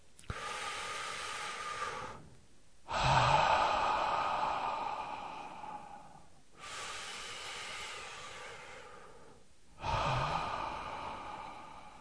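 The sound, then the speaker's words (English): Two slow, effortless breaths taken during a relaxation exercise. Each is a long, airy inhale followed by a louder, sighing exhale that fades gradually, with no talking. “Go ahead and take two effortless breaths now.”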